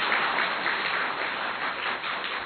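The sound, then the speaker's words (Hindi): An audience applauds during a talk, with dense, steady clapping that holds at an even level from start to finish. No voices come through. “ताली बजाई लेकिन आप सबने जोर से नहीं बजाई है।”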